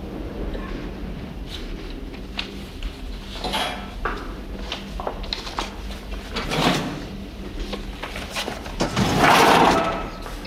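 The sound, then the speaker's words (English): A pass-through drawer slides across beneath a glass partition to deliver a questionnaire, with several scrapes and knocks over steady background noise. A louder sliding rush comes near the end. “Clarice pushes the questionnaire in a drawer through to Lecter, then sits down.”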